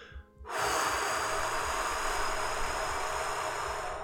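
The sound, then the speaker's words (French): A long, steady exhale through the mouth opens a breathing exercise before vowel chanting, with a breathy rush that starts abruptly and holds at an even level for over three seconds. “On va commencer par une expiration par la bouche.”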